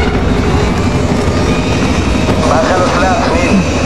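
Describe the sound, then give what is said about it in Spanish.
Aircraft flying and jolting in the film First Man, a loud, dense, continuous engine roar with rumbling turbulence and no breaks. “La nave avanza en horizontal. Se dirige de frente a una elevada colina. Nil la esquiva. El aparato avanza zarandeándose.”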